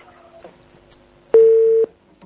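A telephone line tone signals an incoming call: a single loud, steady, mid-pitched tone held for about half a second, with faint background hum around it.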